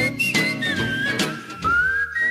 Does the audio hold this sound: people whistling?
yes